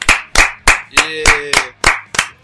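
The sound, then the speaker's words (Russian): Hands clap in a steady, evenly spaced rhythm to welcome a first guest, each clap crisp and fairly loud with brief gaps between them. “Первый гость, кстати. Да, похлопаем.”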